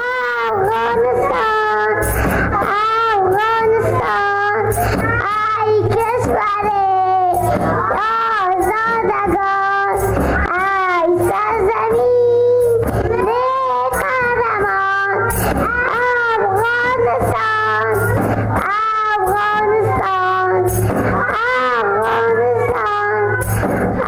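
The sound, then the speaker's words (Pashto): Young kindergarten children sing a song together in a continuous, loud chorus of high, wavering voices that carries steadily from start to finish. “تېره ورځ یوه وړکتون ته تللی وم د هغوی ترانې وخت و چې د دغو کوچنیو ماشومانو وړتیاو ته واقعا هم که څوک وړکتون ته لاړ شي ډېر وخت سړی حیرانېږي. ترانه یې ویله ما دا ترې ثبت کړې ده اوردونکو ته هم رسو”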